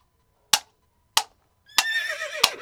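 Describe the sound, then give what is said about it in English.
A horse neighs as a Pony Express rider arrives, its wavering, high whinny coming after two sharp cracks, with a third crack cutting in near the end. “A Pony Express rider arrived with an urgent message.”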